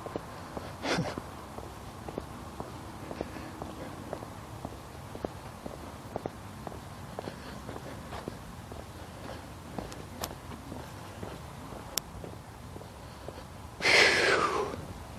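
Footsteps of a hiker on a wet day, a faint, steady stepping rhythm throughout, with a short, loud, noisy burst of hiss near the end.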